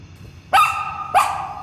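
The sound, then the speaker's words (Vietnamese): A dog barks twice, each bark a loud, sharp burst spaced a little over half a second apart, with quiet in between. “Tôi sẽ không đi theo một con chó bẩn thỉu như vậy đâu.”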